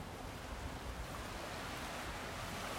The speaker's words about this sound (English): between waves coming in and rolling out. Sometimes similar, sometimes different.